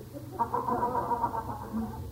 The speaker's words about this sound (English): Can you hear the birds? Yeah, sure can. Oh, there's a crow back there.